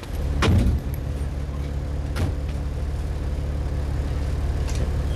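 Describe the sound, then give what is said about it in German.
Steady low engine drone of a car used to haul milk, running throughout, with a brief louder thump near the start. “Ein hübscher Wagen.”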